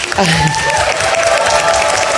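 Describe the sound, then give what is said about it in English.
Audience applause at a National Federation of the Blind scholarship presentation: loud, dense and steady clapping throughout, with a brief vocal sound near the start. “All right, now we can do the applause.”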